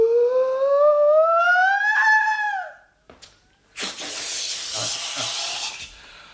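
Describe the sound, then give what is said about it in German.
A small lamp flame is blown out with a sustained breathy whoosh lasting about two seconds. A long, rising tonal sound comes before it, separated by a brief pause. “Oh, schöne Flamme ausgepustet.”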